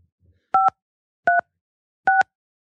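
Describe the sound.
Telephone keypad tones entering a show number for a studio host line: three short, even electronic beeps spaced at a steady rhythm, each alone against silence.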